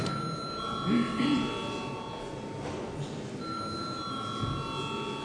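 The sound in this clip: Electronic bell ringing in a parliament chamber before a vote, a faint, steady tone that stops briefly and resumes over soft room murmur.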